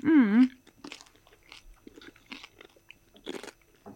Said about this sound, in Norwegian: Ok, så nå smaker vi den andre ribba.